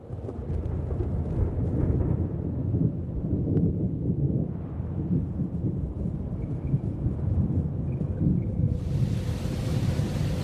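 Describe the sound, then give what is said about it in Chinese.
Strong wind and huge waves surge across a subtropical sea in summer or autumn, making a constant, dense roar with no pauses and no voices. “夏秋季节，亚热带海面。狂风裹挟着巨浪，吞吐着一切。”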